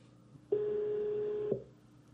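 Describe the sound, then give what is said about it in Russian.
A telephone line gives a single steady, mid-pitched tone lasting about a second while a number is dialed with caller ID, over a faint low hum. “Так, сейчас мы наберем с Caller ID.”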